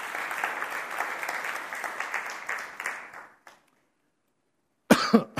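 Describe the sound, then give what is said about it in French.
Church audience applauding Jesus: dense, steady clapping fades out after about three seconds, then silence, then a brief burst of sound at the end. “On va acclamer les noms de Jésus. C'est lui, c'est son œuvre.”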